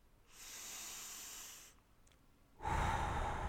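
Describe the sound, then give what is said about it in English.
Slow breathing during a guided breathing exercise: a long, soft, airy exhale hisses out steadily, followed by a short quiet gap and then a louder, rougher breath of air. “Now focus on your exhale. Again.”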